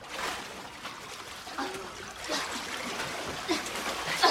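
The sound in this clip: People swimming splash and stir the water, with soft, irregular sloshing and trickling at low volume.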